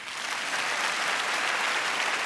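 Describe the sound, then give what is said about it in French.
A live audience applauds in a dense, steady roar of many hands clapping at once, loud and unbroken from start to finish. “Juste pour savoir, applaudissez ceux qui parmi vous sont fidèles.”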